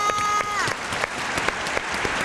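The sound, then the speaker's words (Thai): Applause from an audience at a children's English vocabulary quiz game: dense, steady clapping lasting about two seconds, with a voice briefly audible as the clapping begins. “ปรบมือให้น้องวีหน่อยค่ะ”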